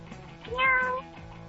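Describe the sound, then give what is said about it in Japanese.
A cute street cat meows once by the roadside: a single drawn-out, mid-pitched meow with a slight rise and fall, moderately loud over quiet background, with no talking. “道端で道を歩いていたら目の前に可愛い猫ちゃんが”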